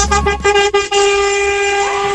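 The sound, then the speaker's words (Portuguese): Car horns honking together in a group honking salute, a few choppy toots at the start giving way to one loud, sustained, steady horn blast. “Aí, ó, buzinaço.”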